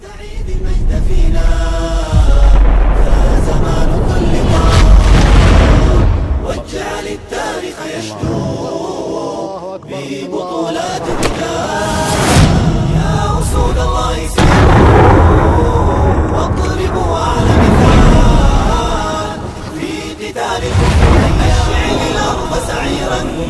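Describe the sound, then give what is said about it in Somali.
Strong explosions in a film about blasts hitting military vehicles and soldiers in the Al Bayda region: loud, repeated deep booms and roaring rumble run through the whole stretch, densely layered with other sound. “sidoo kale qaraxyo xoogan oo ka dhacay deegaanka kala duwan oo ka tirsan gobolka Albayda ayuu filimku soo gudbinaya kuwaas oo qarkood gaadiidka boolbool u kala fardhiyay isla markaana askartii ka dhigay kuwa gabi ahaanba ku gubtay qaraxyada mujaahidiinta”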